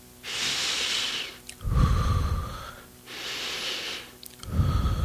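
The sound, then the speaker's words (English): Heavy breathing after an energetic shout: two loud cycles, each a long airy hiss followed by a rougher, lower gust of breath, with no talk. “Whew. I got to breathe.”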